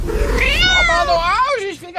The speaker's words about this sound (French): Qu'est-ce qu'il y a, le chat? Qu'est-ce que tu fais dans mes toilettes là?